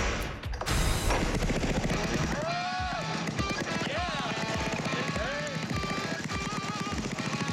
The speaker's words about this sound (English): All we gotta do now is put the spark plug in and see if it runs.